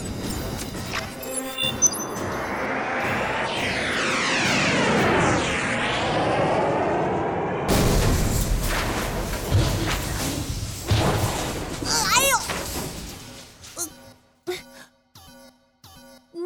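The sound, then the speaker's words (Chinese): A small craft in an animated children's space adventure loses control and crashes during an emergency landing: a long whooshing descent with sweeping, wavering tones, then an abrupt cut to heavy crashes and thuds that fade into a few faint clicks. “注意， 危险！ 我控制不住了。 哎，西塔， 下方已是我们计划降落的区域，西塔，紧急降落。”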